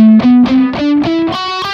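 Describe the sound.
A guitar with a slightly distorted, effected tone plays the G major scale one octave higher up the neck, about seven clear single notes stepping steadily upward in an even rhythm.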